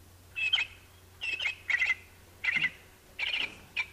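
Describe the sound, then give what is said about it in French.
Canary chirping: quiet, bright, high-pitched chirps arriving in several short bursts with irregular gaps, alone over a faint low hum. “Dit le canari, il est midi.”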